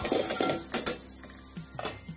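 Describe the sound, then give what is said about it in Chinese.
Metal lid lifted off a pan of fried rice stir-fried with bacon and onion, giving a few quiet clinks and clatters of metal against metal, with no talk. “我開蓋啦”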